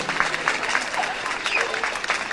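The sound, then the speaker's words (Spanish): Applause from an audience at a school event for a children's choir, a dense patter of many hands clapping at an even level throughout, with a voice faintly present underneath. “Así que le damos fortísimo aplauso.”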